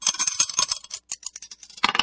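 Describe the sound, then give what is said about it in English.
A pair of dice thrown and rattling, many sharp, bright clattering clicks in quick succession, a brief lull around the middle, then a final burst of taps as they settle. “Let's throw the dice and see which one we're going to play.”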